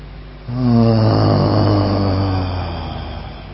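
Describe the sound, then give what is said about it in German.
A deep breath let out with a low, steady vocal tone, sounding as one long voiced exhale of about two seconds over breathy noise, which then fades into quieter breath. “Atme einmal tief ein und lass einfach mal alles los mit einem Ton.”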